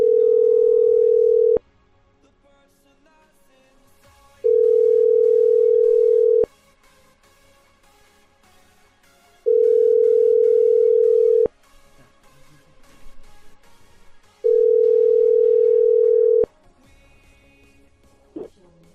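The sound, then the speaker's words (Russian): Telephone ringback tone while calling a man: four steady, single-pitched tones, each about two seconds long, separated by roughly three-second gaps of near silence with a faint background murmur. “надо еще этому Александру набрать.”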